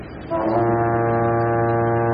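A ship's horn sounds as the vessel departs: one long, steady, low blast that begins after a brief moment and holds without a break to the end, with no voices.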